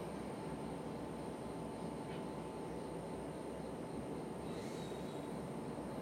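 Riding inside a moving train, a continuous rumble and rolling noise is heard at a steady level throughout, with no voices.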